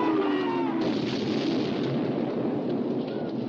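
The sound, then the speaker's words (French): Naval artillery shells firing at and striking a battleship, heard as a continuous, heavy rumbling roar of gunfire and explosions with no clearly separate blasts, staying loud throughout. “Le Bismarck est de nouveau touché de toutes parts par des obus de tout calibre,”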